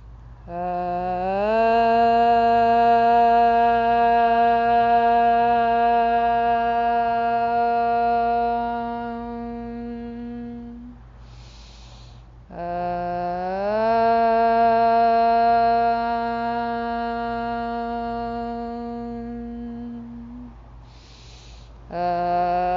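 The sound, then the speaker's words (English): A group chanting om at the start of a yoga practice: two long, steady, resonant drones of about ten seconds each, holding a constant low pitch, separated by a brief audible breath. “Bring your hands to heart center, blink your eyes closed. We'll take three ohms to begin our practice.”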